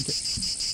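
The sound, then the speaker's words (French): Cicada song: a faint, continuous high-pitched buzzing drone, steady throughout a brief moment with no voices. “Je nous ai trouvé un chant de cigale. Il sonne-tu HD? Voici le son de cigale.”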